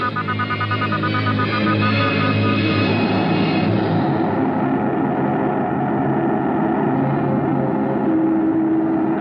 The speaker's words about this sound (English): Is it safe to start the motors yet? Repair is completed.